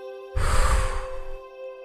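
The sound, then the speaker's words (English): A deep breath is let out forcefully through the mouth during a breathing exercise, a single strong, breathy exhale of about a second that tapers off, over a faint steady hum. “breathe in extra deeply, really make it count. As you reach the top, perhaps take in one more sip of air, feeling stomach and ribcage fully expanded, and then let it go powerfully through your mouth”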